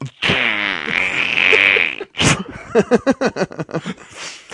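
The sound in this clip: A human voice imitating a fart: a long, buzzing, drawn-out raspberry, then a short burst and a rapid string of sputtering pops.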